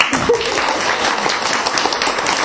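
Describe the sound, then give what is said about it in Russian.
Applause at a New Year's celebration: dense crowd clapping that holds at a steady, fairly loud level from start to finish without a break. “Ну что, похлопаем ему.”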